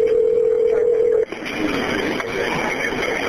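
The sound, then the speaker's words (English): A steady, low telephone dial tone hums for a little over a second during an emergency call transfer, then cuts off abruptly and leaves a hissy, noisy phone line. “And then you're going to hear a dial tone in the phone ring.”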